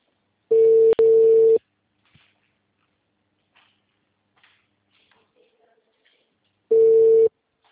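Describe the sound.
Telephone ringback tone on an outgoing call: a steady, mid-pitched electronic tone sounding in two bursts close together, then after a long quiet stretch with faint clicks, one more burst.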